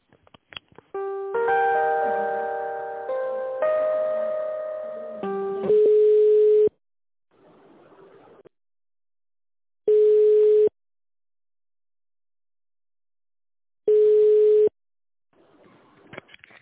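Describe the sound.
Telephone line tones play while a call is transferred to a medical equipment department. A short electronic melody of sustained chiming notes comes first, then three evenly spaced steady beeps of about a second each, with faint hiss between them and no voices.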